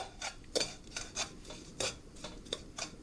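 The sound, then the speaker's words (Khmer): Repeated scraping of a spoon stirring sugar in a hot pan over the flame as it begins to melt, a dry, gritty rasp coming in many quick, irregular strokes at moderate loudness, with no talking. “យើងកូរស្កររបស់យើងឲ្យវារលាយបន្តិច”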